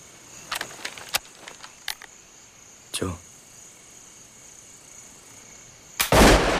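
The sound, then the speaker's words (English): A rifle shot cracks out at night: a few sharp clicks and one brief burst come first, then a single loud, broad blast near the end. “The shot blasts Aaron, who drops to the ground.”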